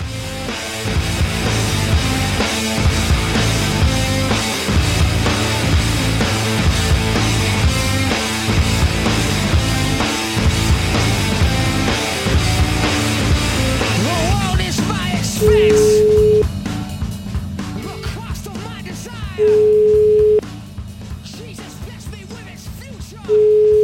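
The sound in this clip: An outgoing telephone call rings out on the line, heard as a steady ringback tone. Dense music plays first, then three long, evenly spaced beeps sound over a quieter background.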